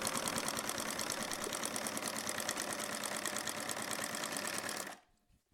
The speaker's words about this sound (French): La machine est prête et on peut maintenant, on peut coudre. Donc là, on prend deux pièces de tissu de l'extérieur, on les met endroit contre endroit et on va coudre le plus grand des deux arcs de cercle.